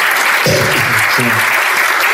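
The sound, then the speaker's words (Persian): Steady applause from an audience clapping in honour of a musician, a dense, continuous patter of many hands that holds at an even loudness from start to end. “میخوام به افتخارش دست بزنیم.”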